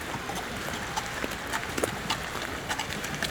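Hooves clip-clop steadily as two horses pull a carriage through mist in the mountains. Many light, even knocks repeat over a constant hiss of background noise.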